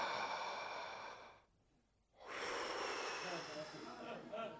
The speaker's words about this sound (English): I remember just halfway through that first bottle of wine taking this big, deep breath, just...